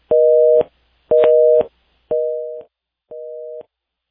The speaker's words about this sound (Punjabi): I think ਤੁਹਾਡੀ line ਜਿਹੜੀ ਆ ਉਹ ਡਿਸਕਨੈਕਟ ਹੋ ਗਈ ਆ